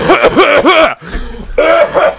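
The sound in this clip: A person coughing in a few rough, voiced bursts, then a quieter, lower stretch before another harsh run of coughs at the end.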